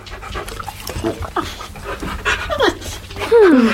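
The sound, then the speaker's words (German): Dog panting in quick, steady breaths, fairly loud and close-sounding throughout. “Und das ist mein Hund Santa. Ist der niedlich.”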